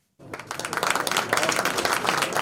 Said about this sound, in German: Beifall für ein schiitisch-muslimisches Land in Israel, das gibt es nicht oft. Ende März bei der Eröffnung der Botschaft Aserbaidschans in Tel Aviv wurde kräftig geklatscht.